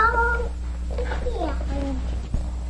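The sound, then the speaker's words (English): A human voice imitating a cat's meow followed by a snake's hiss, with drawn-out, wavering meow-like cries and a short breathy hiss near the end. “A snake cat. Meow hiss. Meow hiss. Meow hiss.”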